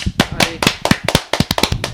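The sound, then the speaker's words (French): Brief applause from an audience: a quick, irregular run of sharp, distinct claps, loud and crisp, with no talk over it. “On l'applaudit un petit peu ou pas?”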